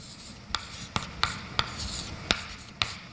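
Writing by hand during a maths explanation: soft continuous scratching strokes broken by six sharp taps at irregular intervals, fairly quiet and with no talking.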